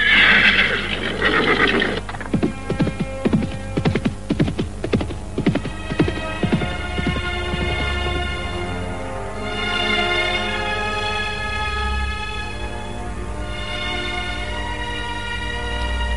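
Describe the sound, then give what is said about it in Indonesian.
A black horse whinnies loudly, then its hooves beat out a fast galloping run of thuds that thin out and fade, over a steady sustained musical drone. “Kuda hitam itu dengan patu berbalik, lalu berlari dengan kencang.”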